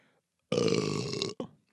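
A loud, long burp rumbles for most of a second, then a second, much shorter burp follows after a brief pause.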